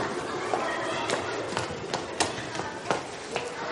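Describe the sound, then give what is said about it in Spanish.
Footsteps descending a flight of stairs inside a school building, a quick, steady run of sharp footfalls over the whole stretch, evenly spaced and moderately loud. “Isa asiente y baja unas escaleras.”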